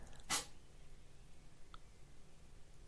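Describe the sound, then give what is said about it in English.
A single sharp, breathy sneeze bursts out near the start. It is loud and over in a fraction of a second, followed by quiet background hiss with a faint click later and no talking. “so you just sneezed in contempt.”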